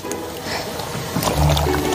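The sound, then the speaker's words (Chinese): Water poured while freshly dug lotus roots are being cleaned, a wet, trickling splash that grows fuller and louder toward the end. “倒水。”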